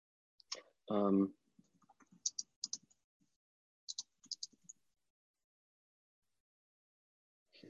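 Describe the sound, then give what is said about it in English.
Computer keyboard typing while writing a message: light, sparse keystroke clicks in short irregular clusters, quiet overall, after a brief voice sound near the start. “So let me type out the next message here.”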